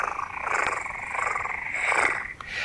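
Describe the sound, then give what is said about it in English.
A cat purring: a faint, steady, rough drone that swells gently and continues without a break, with no talk. “a purr is a cat's way of singing”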